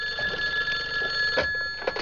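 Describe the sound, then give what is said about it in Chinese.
A telephone rings with an incoming call, a steady electronic ringing tone that holds through the whole stretch, with faint soft knocks underneath. “哎呀，这说曹操，曹操到呀，王总来电话了”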